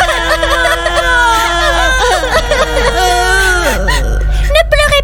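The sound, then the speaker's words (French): Children bursting into sobs as they realise their parents have left them in a narrated fairy tale: whimpering, wavering crying voices with sliding pitch, a few sharp catches of breath and a low hum beneath. “Lorsqu'ils s'aperçurent que leurs parents les avaient laissés, les enfants éclatèrent en sanglots.”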